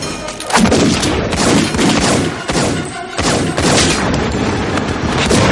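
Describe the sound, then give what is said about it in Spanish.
Gunfire from Neo and Agent Smith shooting at each other as they advance on a subway platform in the 1999 science-fiction film Matrix: dense, loud, overlapping blasts that keep up without a break throughout. “Desenfundan y avanzan uno contra otro disparando.”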